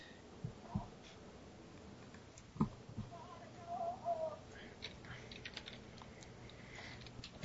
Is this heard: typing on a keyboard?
yes